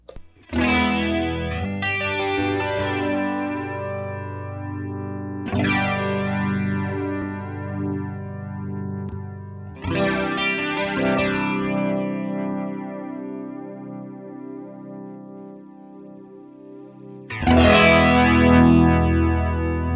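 Electric guitar played through an effects pedal with distortion: five ringing chords struck at uneven intervals. Each sustains with a wavering, chorus-like shimmer, and the final hit is the loudest.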